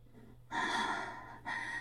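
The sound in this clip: Shallow, airy breathing after exertion in a quiet room: two faint breaths, the first long and drawn out, the second shorter and cut off, with no talk.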